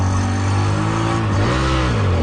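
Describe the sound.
A homemade shoe-shaped car, over 30 years old, runs its engine in a car park: a loud, steady low drone with a brief shift in pitch partway through.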